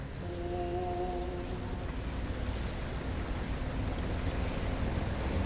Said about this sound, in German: Die See ist aufgewühlt